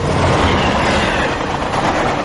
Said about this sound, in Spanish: Dirk Kosler coge un tren para Berlín